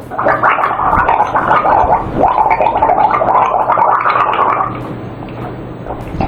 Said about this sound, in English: I could do without the gargling of the pee.